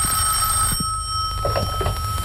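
A telephone rings in a film scene, a steady ringing tone that holds for the whole short moment without a break.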